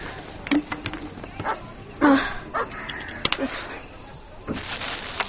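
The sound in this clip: A dog barks and yips in scattered, irregular bursts while people talk. The sharp calls come between the voices at moderate loudness.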